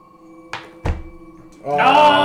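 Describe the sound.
Dice rolled on a table during a tabletop role-playing game give two hollow thuds a moment apart, before a voice starts talking.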